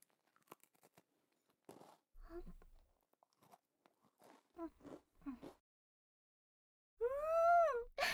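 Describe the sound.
Crisp crunching of a crunchy milk-and-butter cookie being bitten and chewed: a few short, dry bites and chews with quiet gaps between them, soft and close.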